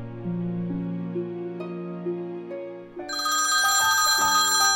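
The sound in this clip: A melodic telephone ringtone signals an incoming caller. Sustained electronic tones step between pitches, then turn louder and brighter partway through as more layered notes join.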